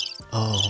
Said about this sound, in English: that's crickets. Sorry about that.